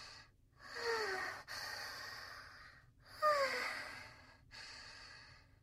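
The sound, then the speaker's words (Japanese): Deep, slow breaths taken to calm a pounding heart: soft, airy inhales and longer sighing exhales, about two full breath cycles, heard alone. “自覚したら心臓のバクバクひどくなってきちゃったよ。深呼吸しなきゃ。”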